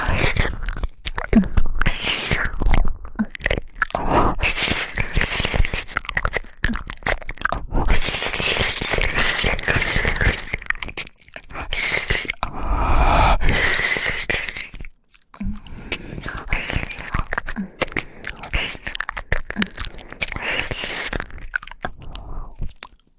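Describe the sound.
Crunchy biting and chewing as someone tastes food, a continuous run of many dense, crisp crunches heard alone, with brief pauses near the middle and a short gap before the chewing resumes.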